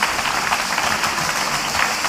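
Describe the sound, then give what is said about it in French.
Audience applause at the close of a live public discussion event, a continuous, even wash of many hands clapping, fairly loud and steady, with no voices heard. “Oui, applaudissez.”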